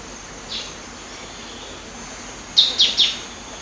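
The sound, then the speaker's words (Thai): A green-tailed sunbird on Doi Inthanon calls: one faint high chirp first, then three loud, quick, high-pitched chirps in close succession over a steady background hiss. “นกกินปลีหางยาวเขียวเปรียบเสมือนอัญมณีบนดอยอินทนนท์ที่จะกระโดดอวดสีสวยไปมาตามดอกไม้เพื่อกินน้ำ”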